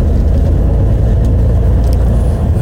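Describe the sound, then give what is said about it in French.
A bus engine while riding inside the bus: a continuous low rumble and drone of engine and road noise, steady and unbroken throughout. “On est euh, dans le bus, direction la piscine”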